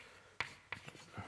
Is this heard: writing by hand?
yes